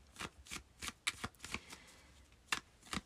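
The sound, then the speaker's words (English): Tarot cards being shuffled for a reading: many short, papery riffling bursts at an uneven rhythm, faint and crisp, with brief pauses between them and no talking. “So let's pull some cards for you and see what needs to come up for Capricorn Rising”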